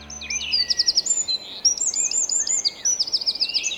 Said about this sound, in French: La mésange bleue, la vedette de notre émission cet après-midi avec nos invités Anne Charmantier et Claire d'Outreland.